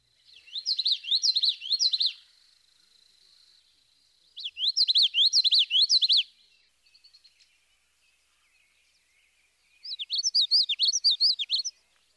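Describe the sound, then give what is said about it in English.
Common yellowthroat song in a variation of its rolling, connected phrases: three bursts of rapid, high, repeated chirping notes separated by pauses, with a faint short flutter of notes between the second and third burst. “The notes of the yellowthroat's vocalization are normally connected, and this gives a rolling quality to his song.”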